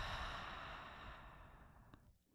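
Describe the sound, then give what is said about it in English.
A long open-mouth exhale at the end of a breathing exercise: a steady, breathy rush of air that slowly fades over about two seconds and trails off into near quiet. “One last inhale into the nose. And open mouth, exhale.”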